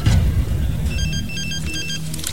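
A mobile phone rings after a number is dialled, sounding as a rapid series of thin electronic pulses over a low, rumbling background.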